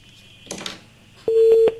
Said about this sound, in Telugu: phone చేశారు, phone call connect కాలేదు